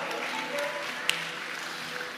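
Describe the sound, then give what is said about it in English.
A church audience claps throughout, making a steady, dense wash of applause that holds an even level from start to finish. “Beautiful. We clap for that.”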